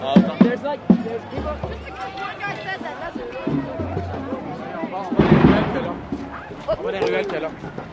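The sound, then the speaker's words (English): Police firing tear gas canisters at a street protest: a few sharp pops near the start, followed by crowd noise and a person talking close by. “So we had two emergency vehicles come in and get stopped, and now the cops are firing off tear gas.”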